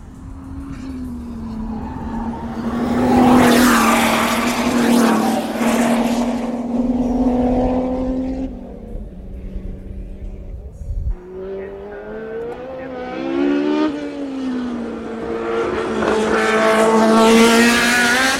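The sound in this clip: A Formula One race car comes out of a corner with a loud, high-pitched engine scream. The whine holds strongly, drops away briefly midway, then returns in force as the car accelerates.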